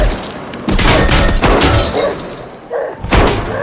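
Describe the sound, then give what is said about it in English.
AK-47 gunfire rings out in a shootout around cars, with a few loud, sharp bursts at irregular intervals and crashing impacts between them. “He grabs the AK-47 and fires back.”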